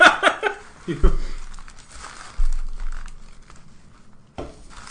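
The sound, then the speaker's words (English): Crinkling and rustling of wrappers as a hand paws through a box of tacos, with a few soft bumps and thuds between quieter shuffling, under people talking. “I think even the sound of you pawing through the box is good radio. This is the sound of me unwrapping a fiery taco.”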